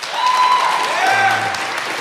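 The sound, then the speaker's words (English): A live studio audience gives a round of applause during a political panel, loud steady clapping with cheering voices mixed in. “So, who thinks Senator Kamala Harris was the big winner of the first 6 months? Round of applause.”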